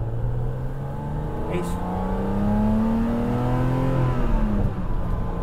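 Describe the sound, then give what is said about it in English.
Induction roar from the 3.5-litre straight-six engine of an older M car, a loud, steady drone rich in harmonics that climbs in pitch through the middle of the run and eases back toward the end, without being revved hard. “It sounds great though. It does. That induction noise is mega.”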